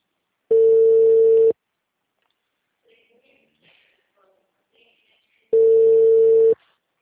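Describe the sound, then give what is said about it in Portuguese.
A telephone ringback tone sounds as an outgoing call is placed: two long, steady single-pitch tones of about a second each, separated by roughly four seconds of near silence with faint background noise. “Peraí, só deixa eu fazer essa ligação, eu já faço.”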